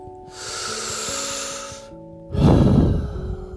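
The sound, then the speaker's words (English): A deep breath during a relaxation exercise: a long, airy inhale lasting over a second, a brief pause, then a heavier, breathier exhale, with soft sustained music tones underneath. “Now, let's just take a deep breath.”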